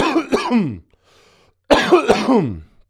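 A person clearing their throat in two rough, loud bursts separated by a short silent pause, heard alone without talk.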